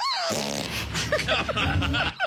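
A woman forces out a fart during a chiropractic adjustment: a few short, buzzy, sputtering bursts spread over about two seconds.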